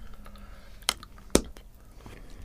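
Two crisp snaps as ruby chocolate is bitten, each a sharp brief crack a fraction of a second apart, against a quiet background with faint chewing.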